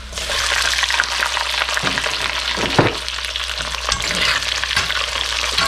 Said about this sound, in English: Big oil sounds. They're scary.